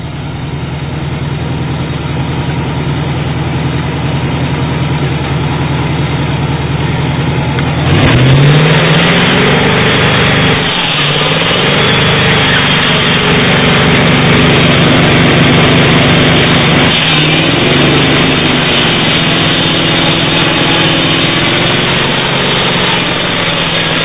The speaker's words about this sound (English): Taking that Buick up a long hill pulling a trailer.